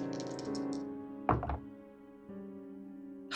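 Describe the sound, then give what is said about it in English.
Dice rolled twice during a board game, heard as a few brief, sharp clattering knocks over soft, sustained background music. “So I'm going to use my good hero card and roll twice because I had not rolled yet.”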